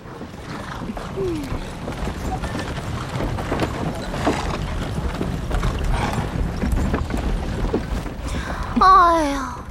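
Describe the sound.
Hooves clip-clop as a horse-drawn carriage rolls with a slow-moving army along a main road: many steady beats over rumbling movement, with a voice speaking briefly at the end.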